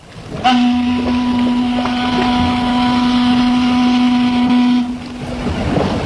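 A passenger ship's horn sounds one long, steady, loud blast of about four seconds before departure. It rings with a low, even tone over a continuous rumbling background that carries on after the blast stops.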